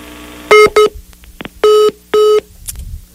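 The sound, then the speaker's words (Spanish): Telephone line tones after a call is cut off: two short electronic beeps close together, then two longer steady beeps evenly spaced, with faint clicks between them. “Se cortó la llamada.”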